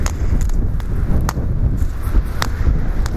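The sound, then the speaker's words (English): Wind buffets the microphone outdoors by a busy street, a steady low rumble with a few brief sharper ticks scattered through it. “Oh, the wind's blowing.”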